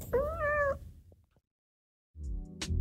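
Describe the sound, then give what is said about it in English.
A pet cat gives one drawn-out, tonal meow with a slight rise and fall in pitch. Near-silence follows, then a burst of low, rough noise with a brief sharp click near the end. “99.1 WQRT LP Indianapolis, and this is the sound of my cat meowing.”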